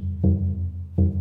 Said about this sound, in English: Now, the way that the drum is played is like this.